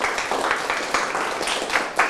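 Students clap for a correct answer during a classroom quiz, producing a quick, rhythmic run of many sharp claps at a moderate level.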